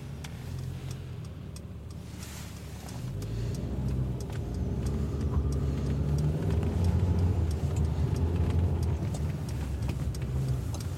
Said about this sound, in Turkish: Ve bakın normal araçlar gibi geri geri manevramı yaptım. Ve aracımı otoparka alıyorum.